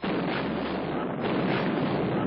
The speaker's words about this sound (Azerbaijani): First, the British ship fired two warning shots.